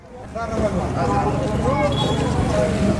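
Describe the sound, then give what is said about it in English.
Trucks crowding together at the Afghanistan–Pakistan border crossing produce a dense, steady rumble of engines with a few higher tonal notes, and babbling voices run through it without pause. “That's the sound of a crush of trucks converging at the border between Afghanistan and Pakistan last fall.”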